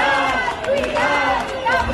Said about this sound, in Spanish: Este es sonido desde la plaza de San Jaume de Barcelona, en Lleida.